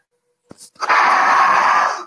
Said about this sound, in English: you're going to blow through the whistle and I want you to feel or see the north wind energy go through that whistle. And it's a powerful exhalation because you're dealing with Boreas